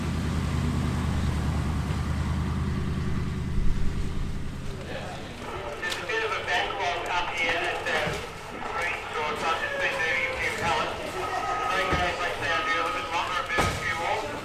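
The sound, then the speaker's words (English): Deep engine rumble from amphibious vehicles on a rocky beach as they ferry cargo pallets from a ship's hold. A steady low drone gives way after a few seconds to continuous clattering, knocking and grinding over the rumble. “Amphibious vehicles called larks rumble up and down the rocky beach, ferrying cage pallets from the Aurora's cargo hold.”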